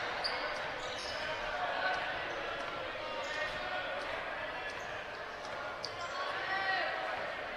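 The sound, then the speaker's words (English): Basketball dribbled on the court during a game, with repeated light bounces faintly heard under steady crowd noise and murmuring voices. “He's still dribbling out there.”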